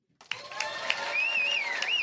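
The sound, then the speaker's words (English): Audience applause at a live contest vote starts after a brief near-silence and quickly builds into a steady, dense wash of clapping that holds to the end, with a thin, wavering tone running through it. “By applause, vote for your favorite bragger on Braggadocio.”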